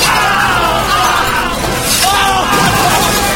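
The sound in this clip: Shattering crashes as something is smashed with a big mallet, loud and harsh, while voices yell and whoop over the noise throughout.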